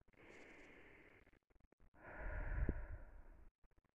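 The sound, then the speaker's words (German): Someone takes deep breaths in and out to calm down while feeling irritated: two long, airy breaths separated by a short pause, the second one louder. “ich werde jetzt auch nochmal tief ein- und ausatmen, weil ich merke, dass ich ein bisschen gereizter bin gerade”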